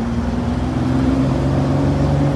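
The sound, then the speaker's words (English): Steady engine drone of a Porsche 911S sports car driving down a street, a low, even hum with a clear tonal note that holds at a constant level throughout, with no voices. “We have a little video of the Porsche going down the street. It looks so good on the street,”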